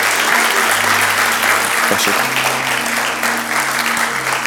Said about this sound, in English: So if you would at this time, I want you to put your hands together